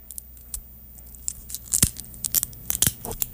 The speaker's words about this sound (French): Tu vas pouvoir enlever les petites feuilles sur notre kaki et tu vas pouvoir tout couper ça dans ce micro magique-là.